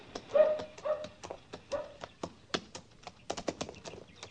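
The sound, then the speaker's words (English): Hoofbeats from a horse ridden by an Apache chief in an Old West setting clop steadily in an uneven rhythm, with many crisp, separate strikes throughout. “Yeah, stop here. Chief Mangus is riding towards us.”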